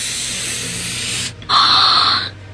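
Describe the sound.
A hissing "psst" comes from inside a cabinet: a long, airy hiss, a brief pause, then a second hiss that is louder and brighter, with no voices.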